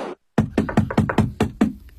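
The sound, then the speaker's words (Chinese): Knocking on a door, a rapid, evenly spaced run of sharp knocks following a brief moment of silence. “我 去 看， 去敲门问问去。”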